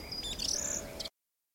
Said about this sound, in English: Let me listen to the sounds of the forest. I love to hear the birds sing.